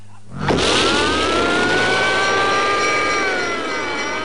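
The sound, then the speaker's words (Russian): Car engine roaring as the car is driven fast and swung sharply through turns: a loud, sustained revving drone that rises in at the start and holds steady, with pitch wavering slightly before easing off at the end. “Обычно Битти никогда не садился за руль. Но сегодня машину вел он, круто сворачивая на поворотах.”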